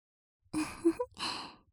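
Gentle breath blown onto an ear: two soft, airy exhales separated by a brief pause, faint and alone.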